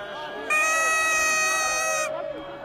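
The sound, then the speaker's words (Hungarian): A car horn honks at a street protest where traffic is blocked near a museum: one loud, sustained, steady blast of about a second and a half over a background of crowd noise, then the noise continues after it stops. “Sok a dudáló. Hát a forgalom blokkolása az általában a tüntetés velejárója.”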